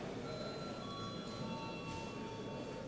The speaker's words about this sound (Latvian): Lūdzu zvanu.